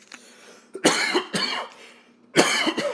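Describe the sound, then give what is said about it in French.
Someone clears their throat in three loud, harsh, rasping bursts. The first two come close together, and a short pause comes before the last. “éclaircir un peu la gorge, si vous me permettez”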